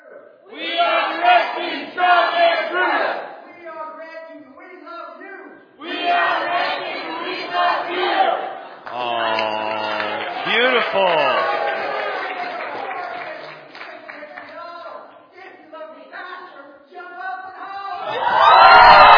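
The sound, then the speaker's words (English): A group shouts a team cheer at an evening games event: several loud bursts of voices yelling together with short pauses between them, ending in a loud rising burst of shouting. “And last minute cheer. Here we go.”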